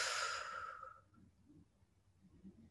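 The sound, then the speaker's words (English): A single deep breath during a guided relaxation exercise, full and breathy at the start and fading away within about a second, leaving near silence with faint low rustles. “Take another deep breath in, expanding your belly.”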